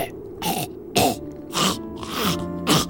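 Throat clearing, a series of several harsh, raspy bursts with short gaps between them, fairly loud and with no talking.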